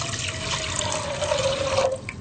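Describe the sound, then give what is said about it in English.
Filtered water pours into a cooking pot in a restaurant kitchen, a steady splashing, gurgling rush at moderate level throughout. “So we put half of water into the pot.”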